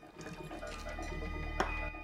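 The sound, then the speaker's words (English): Liquid is poured into a jar as a doctor measures it out. A continuous, faint trickling and gurgling holds steady for about two seconds, with no voices. “He then glances at a doctor still in the room, measuring some liquid into a jar.”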